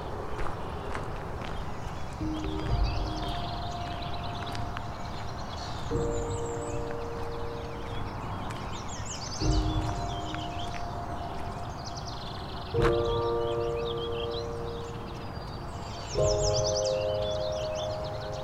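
A house wren, warbling vireos and a Baltimore oriole sing in a tree that holds an oriole nest: five rounds of clear whistled notes recur every few seconds over steady, busy high-pitched warbling chatter.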